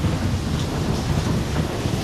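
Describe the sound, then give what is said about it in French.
Thunder during a storm at sea aboard a sailing ship in gale-force winds above 100 km/h: a continuous loud, deep roar blended with broad hissing noise from wind and rain, without clear breaks. “Soudain, un éclair déchire le ciel. Une tempête frappe l'Hermione et l'équipage.”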